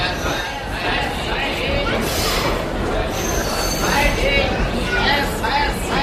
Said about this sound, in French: Chennai, la gare centrale.